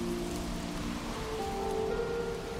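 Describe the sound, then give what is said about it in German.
Rain of an approaching storm makes a continuous, even, rushing hiss with faint sustained tones beneath it, and no distinct drops or thunder stand out. “Ein Sturm zieht auf. Es riecht nach Regen. Wie wild sie rauschen, die Bäume.”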